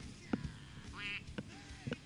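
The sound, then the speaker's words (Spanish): Donald Duck quacking sound effect: one short, raspy, nasal cartoon squawk near the middle, surrounded by soft low clatter and no talk. “si el Pato Donald es el Mesías. Ahí está.”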